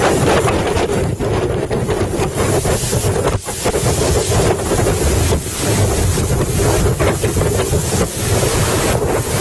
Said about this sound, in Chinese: 今天早晨开始，狂风巨浪啊，向我们袭来。